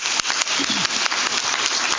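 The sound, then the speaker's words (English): A church audience gives a round of applause for its new members. The clapping is dense and continuous, with sharp individual claps showing above the steady patter. “Let's give our new members a round of applause.”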